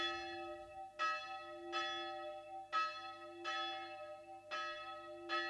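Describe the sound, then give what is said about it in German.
A church death-knell bell tolls at a narrow cemetery outside Sopron, a Hungarian provincial town: six slow, heavy strikes at uneven intervals, each a bright metallic clang with a long ringing hum that carries into the next. “Auf dem schmalen Friedhof vor der ungarischen Provinzstadt Sopron läutet die Totenglocke für den alten László Bozsó.”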